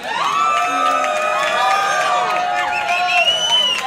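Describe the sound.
Crowd cheering for a guest's introduction, a loud, continuous mix of shouts, high whoops and whistles over four seconds.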